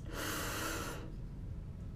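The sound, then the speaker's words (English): A single deep breath drawn in while lying down during a breathing exercise: a loud, airy, breathy inhale lasting about a second, then quiet. “So if you're lying down, you take a deep breath in”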